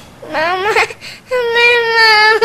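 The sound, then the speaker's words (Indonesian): A young child crying in two loud, high-pitched bursts: a short wavering wail, then after a brief pause a longer, sustained cry with a steady tone. “Kok nangis tuh namanya anak”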